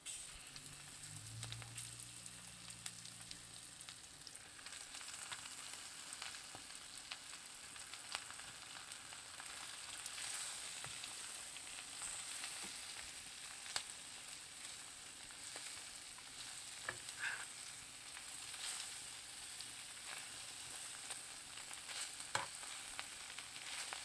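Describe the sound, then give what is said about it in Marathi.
Fenugreek leaves frying with turmeric in a pan as they are stirred: a steady, even sizzle runs throughout, with scattered crackles and soft scraping. There is no talking. “मेथी व्यवस्थित वरखाली परतून घ्यायची आहे।”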